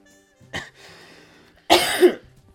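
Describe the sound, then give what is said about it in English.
Throat clearing: a short, sharp rasp and then, after a pause, a longer, louder, harsh clearing of the throat with a gravelly rattle, with no other sounds. “I need to clear this throat of mine.”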